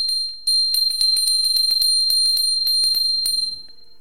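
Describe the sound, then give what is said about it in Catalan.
A small bell, the second in a set of three different bells, rings in a quick, steady run of many bright, high-pitched strikes with a sustained metallic tone, heard alone and stopping abruptly. “La campana número 2.”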